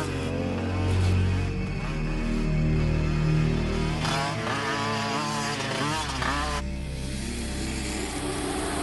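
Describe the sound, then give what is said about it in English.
Scrambler motorcycles ride along a forest path, their engines giving a continuous rumbling drone with revs that waver up and down throughout. “A couple of guys are riding along a forest path on scramblers.”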